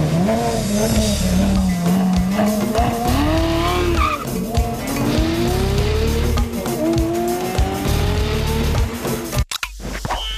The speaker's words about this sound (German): Er fährt los.